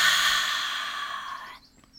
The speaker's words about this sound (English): So let's take a deep breath in. hold it, feeling the energy, and breathe out.